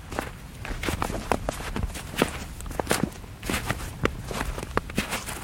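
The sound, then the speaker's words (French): Footsteps crunching through snow, many steady steps in an even walking rhythm, each a short, crisp crackle over a low constant background, with no talk heard. “Et puis, le bruit de la neige. Hein? Écoutez le bruit de la neige quand on marche.”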